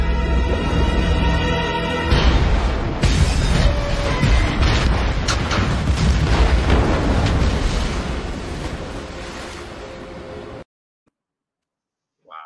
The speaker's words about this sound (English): What they just showed, for those of you on the podcast, was the car exploding off of the deck of the barge.